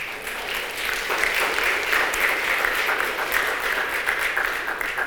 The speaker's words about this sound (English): if you were looking for a place to applaud, that would have been a great spot right there